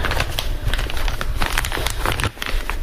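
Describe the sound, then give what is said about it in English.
Crinkling and rustling of a long, skinny plastic bag, sealed at one end, as chops are slid inside; dense, continuous crackles and crumples run throughout with no talk. “And I have a, a, a kind of a long, skinny bag, and I'm going to put”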